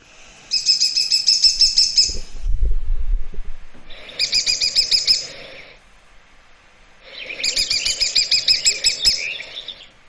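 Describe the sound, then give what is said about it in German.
Woodpecker calls come in three bursts of rapid, high-pitched call notes, separated by brief pauses, with a few low thumps between the first and second bursts. “Aber man hört es. Ja, es ist auch wieder, finde ich, vom Laut her typisch Specht, ja. Aber höher, ja.”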